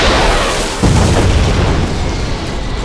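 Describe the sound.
A loud explosion as a ray blast destroys a tank: a heavy boom with a sudden onset early on, swelling into a dense, sustained roaring rumble that stays loud throughout.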